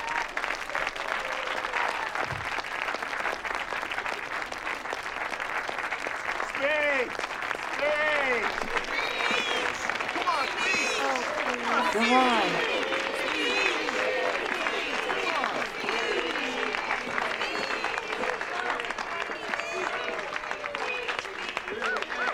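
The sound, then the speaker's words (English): A long round of applause rings out as a woman comes out of a church. Dense, steady clapping continues throughout, with cheering voices mixed in. “comes out of the church, and everyone just, you know, gives her a nice big round of applause”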